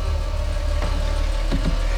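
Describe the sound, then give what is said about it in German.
A car engine idles as the car is parked beside a sagging chain-link fence. A steady low rumble runs throughout, with a few faint bumps and no talk. “ihren Wagen vor dem eingesunkenen Maschendrahtzaun parkte”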